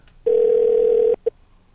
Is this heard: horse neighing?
no